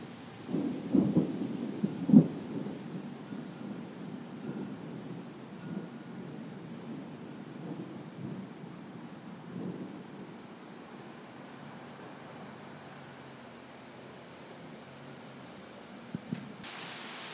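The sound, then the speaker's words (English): Thunder rumbles low and rolling during a thunderstorm, a steady continuous grumble with a few louder bursts early on that then settles into a softer, sustained roar. “They've been having thunderstorms there every day since they've been there. So, goodness. So it's very rumbly. I'm waiting for a big one.”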